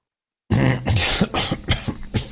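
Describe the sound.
A choking cough: a run of harsh, hacking coughs in an uneven rhythm, loud and rough, following a moment of silence.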